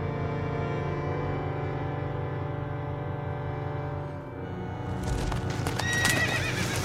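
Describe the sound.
A horse's hooves clop and the animal neighs as a woman falls from its back in a film scene. The sounds sit within a dense, steady layer of sound, with the neigh rising out near the end.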